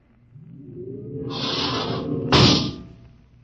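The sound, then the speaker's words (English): A spaceship's outer airlock opens with a hissing whoosh: a low rumble builds, then a long airy hiss, a brief break, and a sharper second burst of hiss that slowly fades. “open the outer airlock.”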